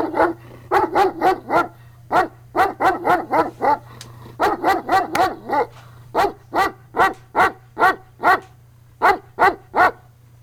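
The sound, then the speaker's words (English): Dog barking in quick runs of loud, sharp barks, many in total, evenly paced within each burst, over a steady low hum. “Are you gonna bark all day, little doggy?”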